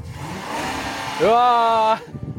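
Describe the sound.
A car engine revs as the driver presses the gas: the pitch climbs sharply in one burst, then holds a loud, steady high drone for under a second before cutting off abruptly.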